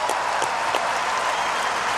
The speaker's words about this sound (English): Serena deserves a great round of applause for her achievements and the one.